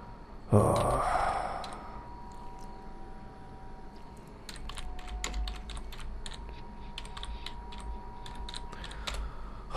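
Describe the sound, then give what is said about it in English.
Someone types on a computer keyboard: many quick, light clicks in irregular runs. A brief breathy rush comes first, over a steady low background hum. “Hear me tap. Type here.”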